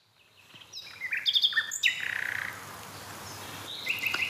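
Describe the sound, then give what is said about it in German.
Nightingale song rings out in short, varied phrases of clear whistles and chirps, with a quick buzzy trill in the middle and sharp bright notes returning near the end, fairly loud over a soft background hiss. “Sehr schön. Danke, liebe Nachtigall.”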